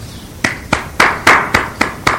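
Hand clapping, seven sharp, evenly spaced claps in a steady rhythm, loud and alone with no voices over them.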